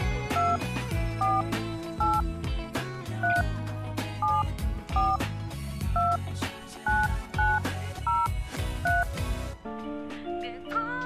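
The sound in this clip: Touch-tone keypad beeps sound as a phone number is dialed: a long series of short dual-tone beeps at an irregular pace, played over steady background music that ends near the close.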